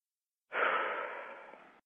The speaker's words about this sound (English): Take a breath.